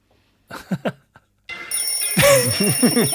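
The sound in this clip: A bell ringing with bright, sustained high tones, coming in after a few brief vocal sounds and continuing beneath talking.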